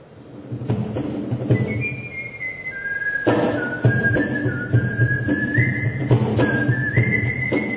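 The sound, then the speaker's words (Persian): Sustained melodic whistling by whistlers at the first gathering of whistle performers in Japan: long, loud held notes that glide and step between pitches, with short breaks between phrases, over a continuous low background hum. “اولین گرده همایی نوازندگان سوت در ژاپن،”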